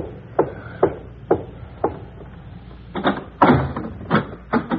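A door that won't open is rattled and pushed, producing many sharp wooden knocks and thumps at an irregular pace that grow louder and closer together toward the end.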